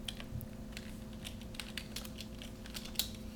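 Typing on a computer keyboard to run a Google search: many quick, faint key taps in an uneven rhythm, with no voices.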